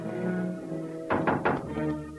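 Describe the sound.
Knocking on a door: a few dull, thudding knocks in quick succession, standing out over a low, steady hum.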